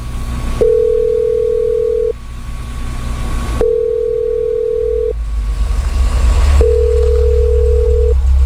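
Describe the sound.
A telephone line tone sounds while a call is being placed: three long, steady, mid-pitched beeps separated by pauses of similar length, each loud and clear over a constant low rumble.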